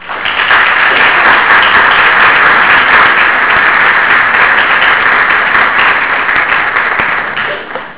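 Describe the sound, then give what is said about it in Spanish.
Sustained applause from a conference audience welcoming a lecturer, with dense, even clapping that holds steady for about eight seconds before easing off at the end. “Lo recibimos con un fuerte aplauso.”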